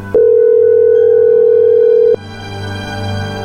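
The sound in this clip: A telephone dial tone while calling someone: a single loud, steady pitched tone lasting about two seconds that cuts off abruptly, leaving faint background music playing on.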